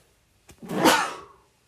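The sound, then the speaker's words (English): A single loud sneeze follows a brief, sharp catch of breath, bursting out and fading quickly into near silence. “sneezing in the middle of a podcast”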